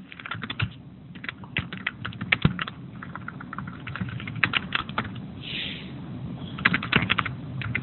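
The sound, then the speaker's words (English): Fingers type on a computer keyboard in a steady stream of rapid, irregular clicks and taps, with brief bursts of louder keystrokes and no talking. “just typing that in.”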